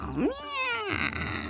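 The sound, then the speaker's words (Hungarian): Angry cat growl and meow from a calico cat: one drawn-out, tonal meow that rises at the start and holds steady, then breaks into rougher, growling noise. Fairly loud and heard alone. “A tarka macska mérgesen morgott és nyávogott.”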